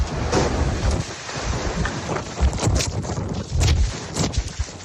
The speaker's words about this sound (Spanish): Localidades del litoral entre Santa Pola y Guardamar del Segura sufrieron rachas de viento de más de 90 kilómetros por hora. Así sonaba el que azotó Torrevieja.